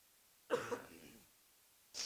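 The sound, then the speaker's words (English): A single quiet cough from someone close to falling ill and troubled by asthma, a short double burst that fades into silence, followed by a brief breathy sound. “I want to just be able to speak, but I have to drink water and cough.”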